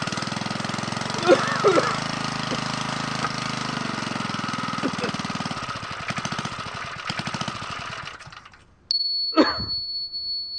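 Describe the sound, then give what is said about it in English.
Random topic generator sound effect: a steady droning mechanical hum with a few soft clicks runs for several seconds, drops away, then gives way to a bright sustained high ding and a quick swooping tone at the end. “pull the random topic generator”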